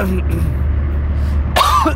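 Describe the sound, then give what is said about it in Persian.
A person coughs once, a harsh burst near the end over a steady low background hum. The cough comes from an itchy, irritated throat after eating local food. “الان میبینیم من سرفه دارم میکنم و گلوم خارش گرفته”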